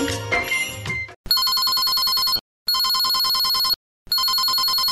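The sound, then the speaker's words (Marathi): A telephone rings on an outgoing call, an electronic ring sounding in three loud, even bursts with short silent gaps, after a brief noisy moment at the start. “चल मी अण्णांना phone करतो।”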